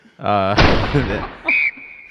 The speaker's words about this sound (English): Give me a gunshot here.